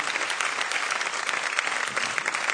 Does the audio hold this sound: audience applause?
yes